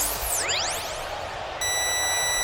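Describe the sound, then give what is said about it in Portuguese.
An electronic chime, the sound ident of Rádio Bandeirantes heard during a football match: bright synthetic tones sweep down and then back up in pitch, followed by steady, sustained high tones over a constant noisy background. “O toque eletrônico da Bandeirantes”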